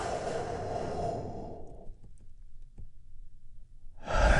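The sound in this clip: A deep breath released during a guided relaxation: a long, airy exhale fades out after about two seconds, leaving near quiet with a few faint clicks before another breath begins at the end.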